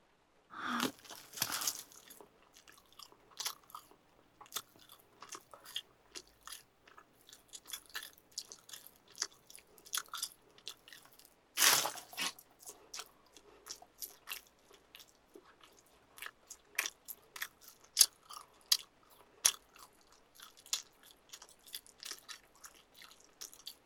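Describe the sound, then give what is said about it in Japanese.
Chewing and biting into food with a bone in it: many crunchy, wet bites and chews in an uneven rhythm, with occasional crinkling, and no talking. “少なくなってきちゃった。大事に食べるね。”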